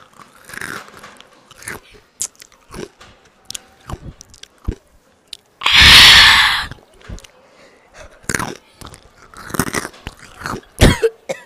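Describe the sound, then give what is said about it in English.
Takis and Hot Cheetos chips being crunched and chewed up close, with many crisp, irregular bites and squishy chewing, plus one loud, sustained burst midway. “And the first thing we're doing is we're going to be eating some Takis. You know, Hot Cheetos and Takis.”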